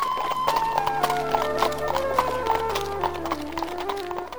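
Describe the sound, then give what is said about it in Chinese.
Hooves clip-clop as a horse pulls a carriage, a steady run of light rhythmic knocks over soft background music. “罗莉接过信后，马上就坐着马车赶去邮局。”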